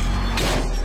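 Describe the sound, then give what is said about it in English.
A short crunching crack as a car's side mirror strikes a pillar in an underground parking garage, one brief burst over a steady low hum. “That's the sound of a car mirror meeting an underground parking pillar.”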